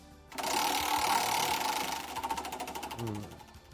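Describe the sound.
A prize wheel spins, starting with a sudden whirring rush that holds steady and then breaks into a run of rapid clicking ticks near the end, fairly faint overall with no talk over it.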